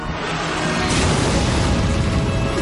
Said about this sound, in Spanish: El dragón lanza fuego.